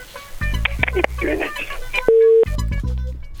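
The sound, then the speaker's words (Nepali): A telephone line tone after a caller hangs up: a single short, steady beep cuts in sharply between voices, then ends as the voices resume. “उहाँले फोनै काट्नुभयो”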